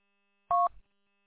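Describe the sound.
A telephone being dialed gives a single short touch-tone beep. The beep is steady, clear and fairly faint, and silence surrounds it.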